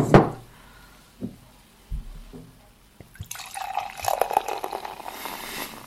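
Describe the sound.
Beer poured from a large bottle: a few light knocks and clinks come first, then a steady, fizzing, gurgling pour of liquid runs on loudly to the end.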